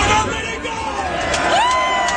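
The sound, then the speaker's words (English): Crowd noise at a political rally in Florida: loud cheering and a babble of many voices, with a few whoops rising over the din. “That's a pretty good crowd.”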